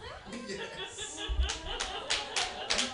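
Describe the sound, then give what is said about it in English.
Audience clapping at a comedy club show, a scattered burst of claps in the second half, mixed with some chuckling and laughter. “Yes. Don't clap. Don't clap.”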